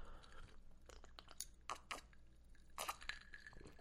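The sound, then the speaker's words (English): Someone takes quiet sips of a drink: soft slurps and small wet mouth clicks, faint and on their own. “hold on, let me take a little sippy poo.”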